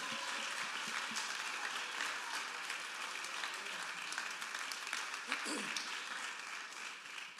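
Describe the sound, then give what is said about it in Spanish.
An audience at a bilingual church service gives a sustained round of applause: dense, continuous clapping that holds at a steady level for the whole stretch before easing slightly at the end. “Dale un aplauso, dile yo lo creo. Give him a hand praise”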